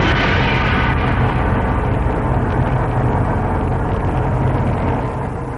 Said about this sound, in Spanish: La pavorosa bomba atómica con su hongo de muerte y desolación.